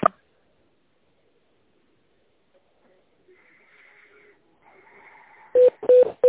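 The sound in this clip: Telephone line tones play while a call is being transferred: a click, then near silence with faint line noise, and finally three short mid-pitched beeps in quick succession.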